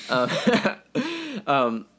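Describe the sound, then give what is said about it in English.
Coughing and strained throat clearing from someone with a carrot stuck in the throat: three voiced, choking bursts, harsh and fairly loud, separated by brief gaps. The last burst trails off. “for the last 5 seconds, I was choking on, there's like a carrot stuck in my throat.”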